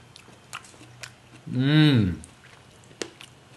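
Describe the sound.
Soft, wet chewing of a juicy, spongy fruit with a huge pit: a few sparse smacks and clicks, with an appreciative hummed voice rising and falling in the middle.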